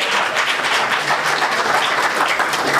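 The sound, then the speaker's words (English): Applause from a church audience welcoming a Bible teacher to speak, a thick, continuous patter of many hands clapping that stays steady throughout. “Let's put our hands together. Come on, welcome him.”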